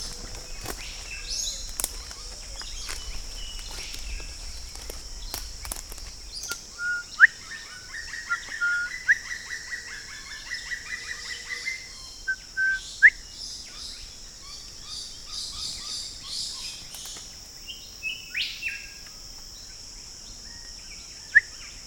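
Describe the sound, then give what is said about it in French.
A small bird sings behind a house, with scattered short, high chirps and tweets that repeat irregularly. The chirps are faint and sit over a steady high-pitched hum. “Pas très farouche comme petit oiseau.”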